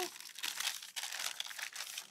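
Baking paper rustles and crackles as it is peeled away from a baked sponge cake, a dry crinkling texture that comes in a few close bursts with short breaks between them.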